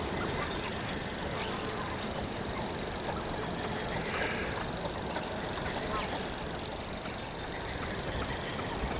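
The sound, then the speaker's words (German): Reeling call of a grasshopper warbler, a bird active at dusk and at night: a high, insect-like mechanical trill runs unbroken and steady through the whole clip over faint background noise. “Ja, das sind auch Vögel. Am Tag eher seltener zu hören, eher so dämmerungsaktiv, aber auch nachts, alle drei. Und so begleitete uns dieses Geräusch durch die ersten Stunden.”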